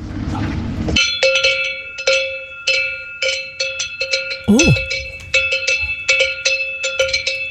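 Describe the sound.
Several cowbells worn by cows clank in an irregular, overlapping rhythm, each strike bright and ringing, with one brief low voice in between.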